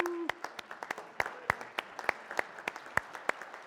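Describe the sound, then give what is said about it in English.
Applause from a church audience welcoming a man after a closing prayer and blessing: many separate, sharp hand claps, uneven and fairly faint, scattered across the whole stretch rather than merging into a dense roar. “All right, let's give him a hand.”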